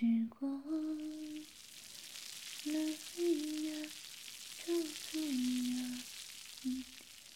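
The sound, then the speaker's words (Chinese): Food sizzles and hisses while frying in a pan as a meal is cooked, a steady hiss running throughout beneath a voice heard in short, tonal phrases. “老师现在呢，就去做饭”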